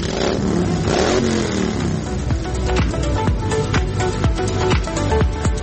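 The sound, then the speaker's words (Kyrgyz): Motorcycle engines rev loudly as bikers in Kyrgyzstan gather for the opening of the riding season, a steady engine drone cut by many sharp, clattering throttle blips in an uneven rhythm. “Кышы бою айдалбай турган темир тулпарларын жүрүшкө даярдап, жүздөгөн байкерлер зуулдат айданга ашыгышат.”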